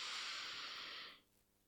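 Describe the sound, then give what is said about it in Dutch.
A deep breath drawn in through the nose during a relaxation exercise: one soft, steady, airy hiss lasting about a second before it falls away to near silence. “En dan mag je even drie keer diep in en uitademen. Als je ademt in door je neus, dan gaat je buik naar buiten.”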